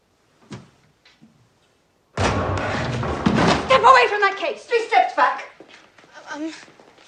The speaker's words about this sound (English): With a bang, the library door flies open and Eleanor bursts in.